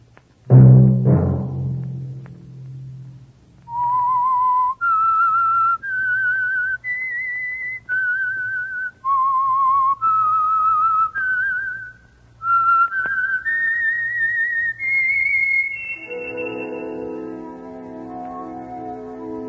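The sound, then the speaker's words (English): A person whistles a clear, high melody of many sustained notes, climbing step by step through repeated phrases. A low tone comes before the tune, and a fuller sustained chord enters near the end. “Let that whistle be your signal for the Signal Oil program, The Whistler, each Sunday night at the same time.”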